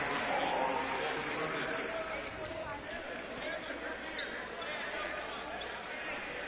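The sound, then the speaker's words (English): A basketball bounces on a college court before free throws, its thuds blending into steady crowd noise while a commentator talks over it. “Michael Zuhl shooting a couple free throws. First one is up and down.”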